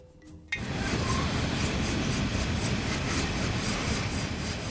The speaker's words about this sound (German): Züge mit bis zu 100 offenen Waggons bringen die Kohle von Drummond und Glencore zur Verladestation.